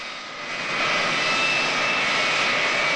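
Aircraft engine roaring as the plane taxis on an airport taxiway, a loud steady rushing drone with a faint high whine that swells during the first second and then holds constant.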